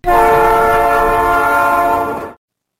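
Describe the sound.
A train horn sounds one loud, sustained, steady chord for over two seconds, then cuts off abruptly into silence.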